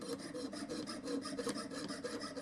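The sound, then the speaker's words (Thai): A fretsaw cuts along the edge of a workpiece, making fast, even rasping strokes that repeat in a steady back-and-forth rhythm. The sawing is faint and continuous, with no voices. “การฉลุครับนักเรียนคือเราฉลุตามขอบครับตอนในส่วนที่เราไม่ต้องการหรือเราต้องฉลุตามรูปทรงนะครับ”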